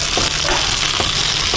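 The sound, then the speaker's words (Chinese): Fried chicken pieces and mushrooms hit a hot pan over high heat and sizzle loudly and steadily, with a few brief clicks over the constant frying hiss. “大火，然后再把咱们煎制好的鸡肉和土豆菇都可以下入了啊。”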